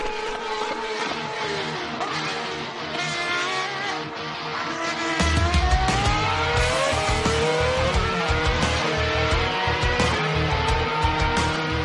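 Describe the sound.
A car engine sound effect roars loudly and continuously, its pitch climbing repeatedly as if revving through gears. A heavier low rumble joins midway, with a hint of tire squeal.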